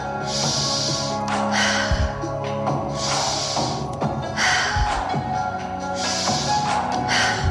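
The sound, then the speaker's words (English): Several strong, forceful inhales come in a rhythmic sequence during a guided breathing exercise, with the shoulders raised toward the ears. Each breath is a breathy rush of air over a low, steady background. “Nice strong inhales.”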